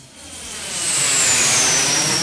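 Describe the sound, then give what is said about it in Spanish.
Airplane engine roar that swells in loudness over the first second and then holds steady, with a high whine gliding slightly downward above the broad rumble. “estacionó el avión en el Reino Unido”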